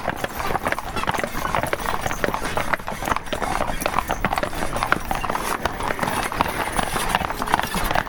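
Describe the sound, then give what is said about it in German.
Hooves of four Haflinger horses clip-clop as the team breaks into a trot, a dense, continuous clatter of overlapping hoofbeats at a steady, brisk pace. “Oskar, trab mal an. Jetzt traben auch die vier Haflinger.”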